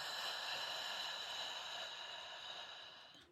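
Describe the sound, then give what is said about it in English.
A slow, soft breath drawn in and let go during a guided tapping meditation, faint and steady, thinning out toward the end. “Just taking a really slow breath in here. And letting go.”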